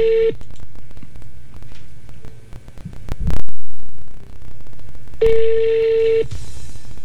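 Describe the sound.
Telephone call ringing out after being dialed: a steady ringback tone sounds once briefly at the start and again for about a second later on, with low hum, faint clicks and a short thud between the rings.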